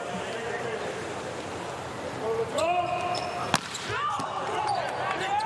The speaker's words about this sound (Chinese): 范圭内蒂的发球，